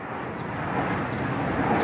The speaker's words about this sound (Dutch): De vliegtuigen, ze vliegen hierover.